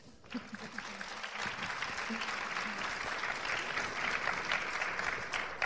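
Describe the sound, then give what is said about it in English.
Audience applause for a panel of speakers at a discussion event. Quiet, dense, continuous clapping builds slightly and holds steady, with a voice briefly audible near the start. “Great, great points. Give it up for our panel.”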